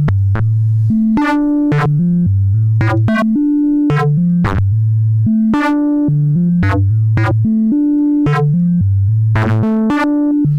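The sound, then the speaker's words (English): Synthesizer oscillator output plays a running sequence, a steady repeating pattern of bright, plucky tones over a deep pulsing bass line, loud and continuous throughout. “So we've got this coming out of one side of the oscillator, and we've got this coming out the other side of the oscillator, which sounds a lot cooler when the sequence is running. So let's hit go.”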